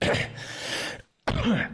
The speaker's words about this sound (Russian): Извиняюсь, да, чуть закашлялся.